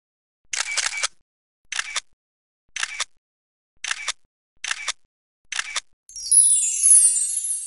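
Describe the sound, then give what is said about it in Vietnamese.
Camera shutter clicks as photos are taken: six crisp, evenly spaced mechanical snaps, followed by a bright, high shimmering sound that runs to the end. “Được rồi, em đứng tạo dáng đi, để anh chụp cho.”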